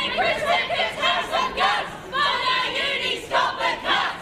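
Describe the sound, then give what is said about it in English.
Protesters chanting at Otago University during the Prime Minister's visit: many voices shout together in steady rhythmic bursts, loud and continuous throughout. “It was a mixed welcome for Prime Minister Chris Hipkins at the Otago University, with protesters chanting and selfie requests.”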